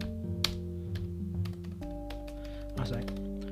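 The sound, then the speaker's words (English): Typing on a computer keyboard: many quick, crisp keystrokes tapping irregularly over a steady background of sustained musical tones that shift notes a few times. “Hold on a sec. Let me just type.”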